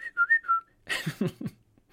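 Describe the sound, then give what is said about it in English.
A person whistles three short, clear notes in quick succession, with a brief gap between each note. “what is going on? Who's whistling at me?”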